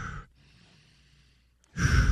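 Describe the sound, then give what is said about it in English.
Deep breaths are taken before eating a hot dog: one heavy breath at the start, a quiet pause, then another loud breath. “Give me 3 deep breaths.”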